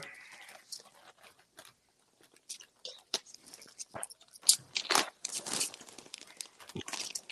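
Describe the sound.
Crinkling of a grilled pork flavor snack bag: irregular plastic crackles and rustles that grow louder and denser toward the end, mixed with crunchy bites.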